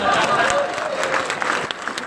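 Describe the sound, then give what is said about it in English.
Audience applause from a film-screening crowd, a dense, steady wash of many hands clapping for about two seconds, with a voice faintly audible over it. “let's just clap for Edith Head, even though she didn't do it.”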